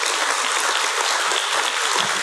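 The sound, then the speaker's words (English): Applause from a church audience clapping for the Lord, a dense, steady burst of many hands with no voices over it. “Come on, we can give the Lord a round of applause for that.”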